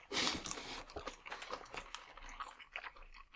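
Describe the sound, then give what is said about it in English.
Crunchy chewing on fried chicken that is still crisp after a 15-minute drive home as takeout. Faint, irregular crackly bites and munching continue throughout. “And that crunch is the chicken.”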